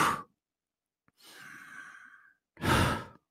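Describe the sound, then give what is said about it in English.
A person imitates the breathing of someone asleep: a few breaths alone, with a short puff, a longer airy breath and a final forceful exhale separated by silent pauses. “So that is what a sleeping breathing pattern sounds like.”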